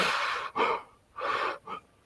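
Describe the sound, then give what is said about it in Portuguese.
Sharp inhalations drawn through a face mask to test how well it fits, heard as a few breathy, hissing intakes separated by short pauses, with no talking. “Se quando a gente puxa o ar, a máscara está oferecendo resistência, é provável que ela esteja bem ajustada.”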